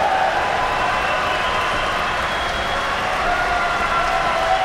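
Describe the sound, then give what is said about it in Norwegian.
Standing ovation in an opera hall after a performance of Macbeth: dense, sustained applause from a large audience, a steady unbroken wash of clapping that stays loud throughout. “og der er stående applaus inde i salen”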